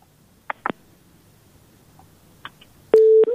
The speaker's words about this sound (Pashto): بلې، اړیکه یې پرې شوله